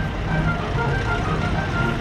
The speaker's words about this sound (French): Là, il y a les chars Leclerc, ça fait du bruit.